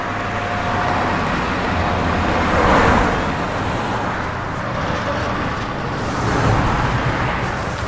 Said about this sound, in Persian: محب با ماشین توی جاده حرکت میکنه